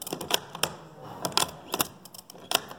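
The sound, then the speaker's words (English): A rifle bolt action being worked at a firearms museum's gun-handling station gives a brisk, irregular series of sharp metallic clicks and clacks, some in quick pairs, with no voices. “And in the middle of the first room, you can learn how to handle a gun safely. Visitors can even practice a bolt action.”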